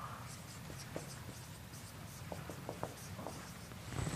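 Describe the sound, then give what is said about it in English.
Faint scratching of a pen or marker writing, a few short scratchy strokes over a low steady hum. “Excuse my writing.”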